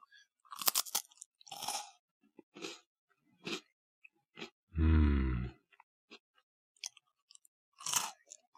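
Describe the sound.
Crunchy biscuits being eaten: many sharp, close crunches and chews in separate bursts, loud against silence, with one deeper voiced grunt midway.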